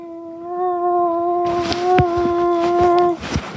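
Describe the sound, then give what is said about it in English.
A person's voice imitating whale song: one long, sustained, slightly wavering tonal hoot held for about three seconds, with scattered clattering noise behind it. “that fantastic impression of whale song”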